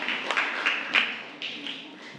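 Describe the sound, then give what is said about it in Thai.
Classroom students applauding a group of classmates, a sparse patter of clapping with a few sharper bursts standing out, moderately soft and uneven rather than a full ovation. “ปรบมือให้กับกลุ่มที่3ด้วยค่ะ”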